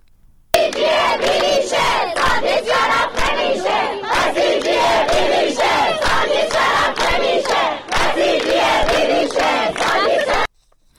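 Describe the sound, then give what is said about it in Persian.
Protesting university students in Kermanshah, Iran chant at a rally, a large crowd shouting loud rhythmic slogans in a steady, pulsing cadence for about ten seconds before stopping abruptly. “صدای دانشجویان دانشگاه رازی کرمانشاه.”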